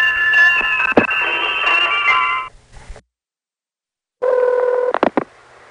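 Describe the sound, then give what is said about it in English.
Telephone keypad dialing tones sound in two bursts of steady, bright multi-tone beeps, each punctuated by sharp clicks and separated by a gap of silence. “You've dialed 24-hour telephone entertainment”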